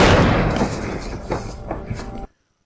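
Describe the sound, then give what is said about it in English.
A gunshot in a film scene, fired as a man's partner is shot in the head, opens with a loud blast that fades out over two seconds, with a few dull thuds, then cuts to silence. “he's got a gun to the partner's head. Fuck you. What? Wait, no!”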